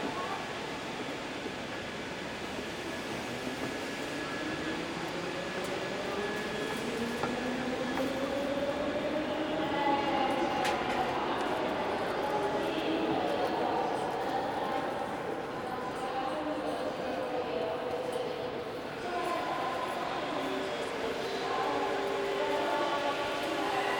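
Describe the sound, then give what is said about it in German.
A regional train from Ahrensburg to Bad Oldesloe pulling out of platform 6B, a continuous mechanical rumble with a faint electric whine that slowly rises in pitch as it gathers speed. “Bitte Vorsicht am Gleis 6B, der bereits angekündigte Standexpress aus Ahrensburg, Zugfahrt als Regionalbahn nach Bad Oldesloe, fährt jetzt an.”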